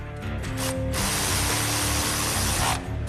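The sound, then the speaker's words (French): Rapid ratcheting clicks and mechanical whirring as the belt tensioner on an engine's timing belt is operated, forming a dense, steady burst of metallic noise with no talk. “Ensuite, on actionne le tendeur de courroie.”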